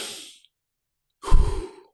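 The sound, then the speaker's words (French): Breathing during a double-inhale breathing exercise: a soft, airy breath trails off, then after a short silence a louder, gusty, sigh-like breath rushes through and fades. “La double inspiration, elle va se situer dans les poumons.”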